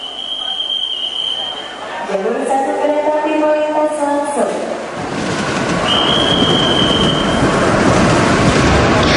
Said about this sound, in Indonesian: Tidak lama setelah itu, kereta pun berangkat meninggalkan stasiun Cikudapate.